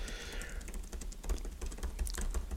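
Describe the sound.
Keyboard typing as someone writes a note: many quick, light key clicks in an uneven run, faint and steady, with no talk over them.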